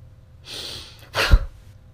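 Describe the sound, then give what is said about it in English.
Forceful puffing exhales during a seated, cross-legged breathing exercise: a softer breathy rush, then one sharp, loud burst of air that cuts off quickly. “The main focus throughout the exercise should be on exhaling suddenly with a puffing sound and not on inhaling. So I'll do that again.”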